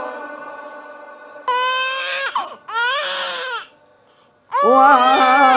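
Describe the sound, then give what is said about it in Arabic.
An infant cries in loud, high-pitched wailing bursts, three strong cries separated by short pauses, with a quieter tone before the first. “هذا صوت طفل يبكي ويا كثر الأطفال اللي يبكون هذا الطفل خلاني أقرأ قصيدة ثانية”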